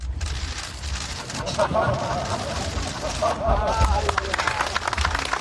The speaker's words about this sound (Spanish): Ese era el momento recogido por los flashes, ese era el sonido de ese estrecharse de las manos de los dos presidentes.